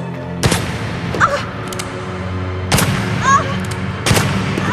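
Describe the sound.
Three loud, sharp gunshots, unevenly spaced, each a sudden blast that decays quickly, with faint sounds between them.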